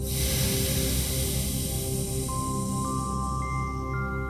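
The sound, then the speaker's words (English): A long, slow, deep breath is exhaled in a soft, airy hiss that gradually fades, over quiet sustained tones. “So let's start by taking a long, slow, deep breath in, and letting that go.”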